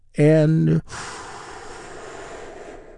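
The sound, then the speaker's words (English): A big, deep breath taken during a guided relaxation exercise: a brief voiced sound, then a long, soft, airy rush of breathing that holds steady for about two seconds and gradually tapers. “And we do that by taking a big, deep, healing breath. Right now, here we go.”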